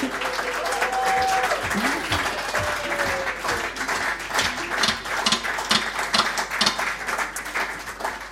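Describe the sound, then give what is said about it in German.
Audience applause at a live music concert, with dense, steady clapping that stays fairly loud across the whole stretch. “Dankeschön und ja, einen riesen Applaus.”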